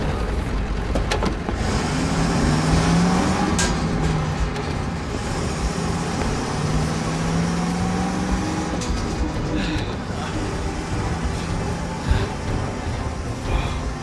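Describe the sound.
Manual-transmission car driving away and accelerating, a loud, steady rumbling roar of engine and road noise that runs throughout, with a few faint clicks and knocks.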